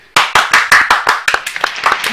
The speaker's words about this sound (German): Danke. Mehr Applaus.